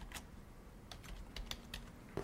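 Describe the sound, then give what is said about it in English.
Faint typing on a computer keyboard while study details are entered into a software form: a few scattered, soft key clicks over low background hiss. “Define a study, and here I can type,”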